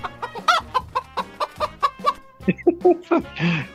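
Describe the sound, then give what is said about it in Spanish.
Chickens cluck in a henhouse, giving many short, rhythmic clucks in quick succession that are moderately loud, with no talk. “¿Se te abrieron las puertas del gallinero”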